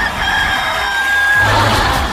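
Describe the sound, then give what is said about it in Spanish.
A rooster crowing: one long, loud, drawn-out crow with a bright, strained tone that fills the whole clip. “Así que si alguien tiene un gallito por ahí, póngale bueno, ¿ah? Ahí está.”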